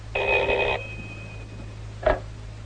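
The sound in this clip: A telephone call being connected: a short electronic ring burst, then silence and a single brief click, all over a faint low hum.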